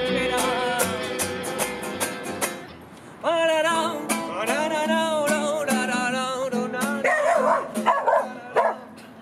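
A dog barks and yips loudly in a long run of sharp barks. Some barks stretch into higher whining yelps.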